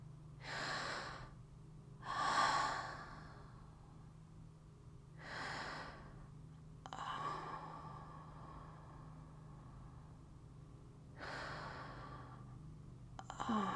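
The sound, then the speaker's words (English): Slow, deep breathing with several soft, airy breaths spaced a second or two apart. The breaths are faint, over a low steady hum. “let's take a breather for a few seconds. There you go. Let's just take a few deep breaths.”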